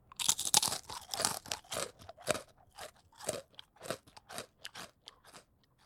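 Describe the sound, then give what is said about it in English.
Teeth crunching through fried prosciutto tortellini make many loud, crisp, brittle crunches in an irregular chewing rhythm, heard alone without talk. “Munching is eating with this loud chewing sound. What you hear is my teeth crushing the tortellini, and this is called crunching.”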